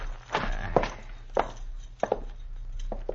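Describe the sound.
Heavy footsteps of someone walking ahead into a cabin, a few dull, uneven thuds spaced irregularly over a soft background, with two steps falling close together near the middle.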